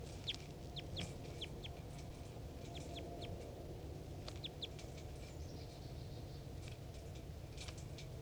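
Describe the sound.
Wild bird calls used as a decoy: many short, high chirps come in small clusters over a steady, noisy background hiss.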